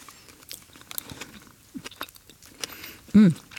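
Chewing and crunching on a dessert topped with Biscoff cookie crumbs and sauce: a few soft, crisp bites at irregular intervals, fairly quiet, ending in a brief louder voiced hum.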